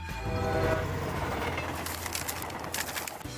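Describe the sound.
A train rolls past with a loud, heavy low rumble and rattling clatter, broken by a few bright, high squealing tones toward the end.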